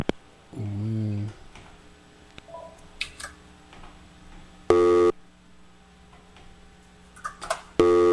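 Telephone busy tone after a radio call-in dropped: an early warbling tone, then two short, loud tone bursts a few seconds apart, with faint clicks and line noise in between.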